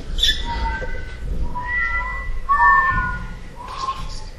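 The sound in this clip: A person whistles a signal as a series of short, clear whistled notes with gliding pitch, separated by brief pauses and heard without talking.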